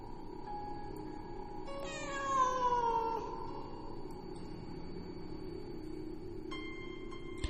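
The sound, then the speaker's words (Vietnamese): A cat yowls plaintively outside a window: one long, drawn-out cry that falls in pitch, fairly faint over a steady background hiss. “Ở bên ngoài vẫn vang lên tiếng con mèo kêu lên thảm thiết lắm.”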